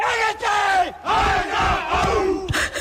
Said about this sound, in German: Und wie sich die Rostocker vor einem Spiel so richtig heiß machen, das hört sich so an.